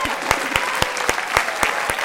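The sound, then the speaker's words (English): An applause sound effect: dense crowd clapping under a regular beat of sharp, evenly spaced claps, with no change in pace. “Give us an applause or something.”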